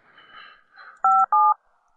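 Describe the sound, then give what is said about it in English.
Telephone keypad tones as a number is dialed to bring another person onto a call: two short, loud, clean electronic beeps in quick succession, preceded by faint low rustling. “Just gonna dial her in here.”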